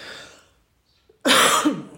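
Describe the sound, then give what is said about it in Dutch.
One loud, sharp cough after a brief quiet pause, raspy and breathy, standing alone without talk. “Excuses toch voor een kuchje.”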